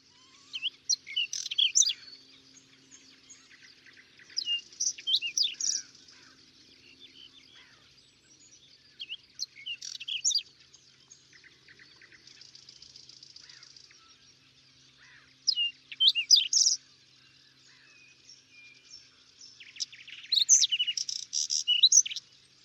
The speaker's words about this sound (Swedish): Buskskvätta.